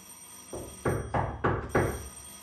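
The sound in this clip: Knocking on a door locked with a bolt at night: five evenly spaced heavy thuds, the first softer than the rest, in a steady rhythm with no voices.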